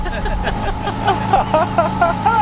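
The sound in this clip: A cargo moped's small engine runs steadily and pulls away, a buzzing, warbling motor drone that holds at an even level.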